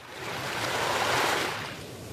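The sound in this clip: A sea wave washes in near the shoreline of an island in the South China Sea. One broad, hissing surge builds to a peak and then gradually fades.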